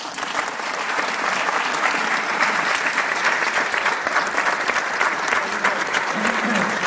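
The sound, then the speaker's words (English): Audience applause welcomes a performer on the opening night of the Hippodrome Festival of Silent Cinema. Many hands clap in a dense, steady, even wash that lasts the whole stretch with no voices over it. “Please put your hands together for Neil Brown.”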